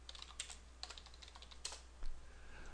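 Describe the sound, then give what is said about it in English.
Quiet, irregular typing on a computer keyboard while a name is entered during setup of a social media page. Clusters of light keystroke clicks come with brief pauses, and a slightly louder clack comes near the end. “When I type name, I always type names.”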